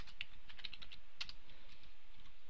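Someone types code on a computer keyboard, with many faint, quick, irregular key clicks in a continuous patter.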